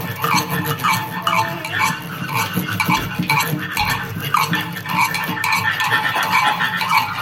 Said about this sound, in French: au bord de la mare aussi, il y a trop de bruit